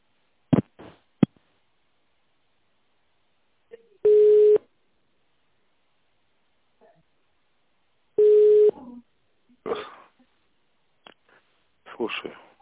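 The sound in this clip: Telephone line tones while a business call is transferred to another person: two steady, low-pitched tone bursts of under a second each, about four seconds apart, with short clicks and brief voice-like sounds around them.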